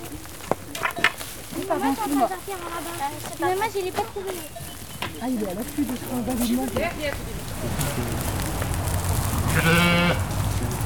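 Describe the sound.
Ewes bleat repeatedly on a farm during their care: many wavering, nasal bleats in quick succession, followed by a rising, steady hiss near the end.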